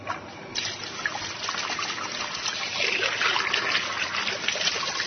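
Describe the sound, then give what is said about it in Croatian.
Water pours into a small long-handled džezva pot for brewing tea. A steady trickling splash begins about half a second in and continues evenly to the end, with no voices. “Za početak sipat ćemo vodu u džezvu.”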